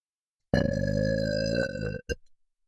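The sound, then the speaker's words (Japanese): A loud, deliberate burp rolls out as one long, deep, steady eructation lasting well over a second, then breaks into a few short trailing gurgles. “私たちは大きなゲップを出します。”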